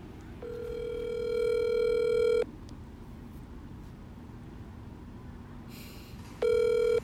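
Ringback tone of an outgoing telephone call. A long, steady electronic ring sounds, then a few seconds of quiet line hiss, then a second ring that is cut off at the end.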